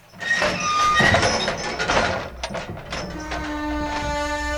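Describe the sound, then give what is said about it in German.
A large castle gate swings open with a rattling mechanical clatter of chains and gears, loud at first and then easing into lighter ticking. “Ich bitte schon jetzt um absolute Ruhe. Otto Bazziderus ist sehr geräuschempfindlich. Öffnet das Tor!”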